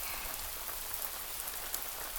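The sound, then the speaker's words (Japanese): Heavy rain falls, a steady, quiet, even hiss of dense drops with no pauses. “雨もひどいですし”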